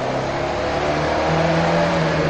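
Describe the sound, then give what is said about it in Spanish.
A car engine roars as the vehicle pulls away at high speed after a U-turn across a solid line. The loud, steady engine note runs without a break for the whole moment. “el coche mientras Lucía espera en la puerta del copiloto a que su novio le abra por dentro. La joven entra y se ponen en marcha. Cambian de sentido saltándose una línea continua y se marchan a gran velocidad.”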